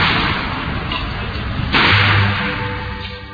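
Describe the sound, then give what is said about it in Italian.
A gunshot fired by carabinieri police during violent street clashes: one sharp, whip-like burst stands out over constant loud hiss in a muffled, low-fidelity recording. “I carabinieri sparano.”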